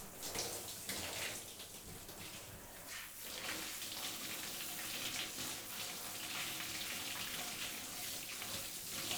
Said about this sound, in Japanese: いつもより少しぬるめのお湯で流してるんです